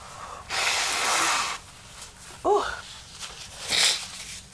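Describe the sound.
A sick person blowing their nose: one long, loud, breathy blast, then a couple of shorter snorting bursts, with no talking.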